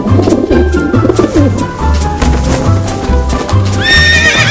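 Horse hooves clip-clop for a Pony Express rider, with pigeons cooing alongside and a horse's whinny rising near the end.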